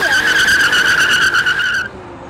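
Tires squeal as a used van spins its wheels and speeds off. A loud, steady, high-pitched screech runs for almost two seconds, then cuts off abruptly into a quieter tail.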